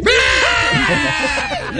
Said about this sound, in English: I don't know why everybody's yelling.